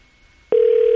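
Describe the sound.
A telephone rings on an outgoing call: after half a second of quiet, a single steady ringing tone comes in loud and continues unbroken to the end. Nobody speaks.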